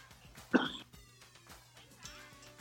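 A man clears his throat once in a short, rough, rasping burst. Quiet background noise follows.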